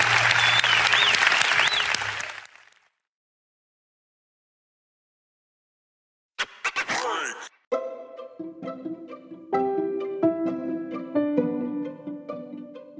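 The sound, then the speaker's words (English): A church audience applauds in celebration, a loud, dense burst of clapping that fades out after about two seconds. A stretch of silence follows, and then music begins. “Could somebody celebrate big, celebrate loud, welcome those born into God's family today.”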